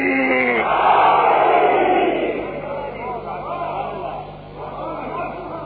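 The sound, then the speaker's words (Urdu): A crowd roars back in unison in response to the Nara-e-Haidari religious slogan, a loud collective shout that swells early, then eases into a sustained murmur before a shorter second surge near the end. “ان کے نام کو خراج عقیدت پیش کرنے کے لیے نعرہ حیدری.”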